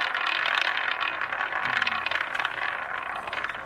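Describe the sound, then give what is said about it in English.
Roulette wheel spinning: a continuous, even rattling whir with a faint scraping edge, fairly loud and steady, easing slightly at the end, with no talk over it. “All right, here's the roulette wheel.”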